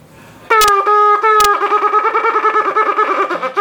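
A shofar sounds shevarim-teruah in one breath: a few short broken blasts give way to a rapid run of staccato, wavering notes, loud, brassy and buzzy, heard alone.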